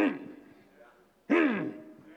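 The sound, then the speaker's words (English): A voice imitates a lion growling while it eats with two drawn-out, throaty vocal growls. The second starts abruptly and is louder than the first. “It's not speaking, it's just growling.”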